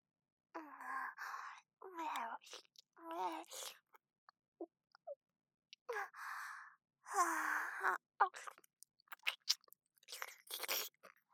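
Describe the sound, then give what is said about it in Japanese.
Crunchy Japanese dagashi snacks being eaten, with sharp crunches that cluster toward the end, mixed with drawn-out humming and sighing vocal sounds between bites. “駄菓子を無駄になんてできませんから、ちゃんと全部食べますよ。”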